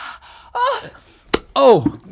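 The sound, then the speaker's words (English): Comic sound effect of an eyeball being squeezed out of a skull: strained, wavering vocal groans and gasps with a single sharp pop in the middle, followed by a longer, louder moaning burst. “Oh, that was my eyeball. Oh, my skull has just squeezed my eyeball out.”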